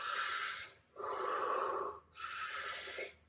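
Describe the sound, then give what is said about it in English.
Deep, slow breaths during a stress-relief breathing exercise, heard as three long, loud, airy rushes of breath separated by brief pauses, with no talking. “And one of them is I can do 5 times deep breath.”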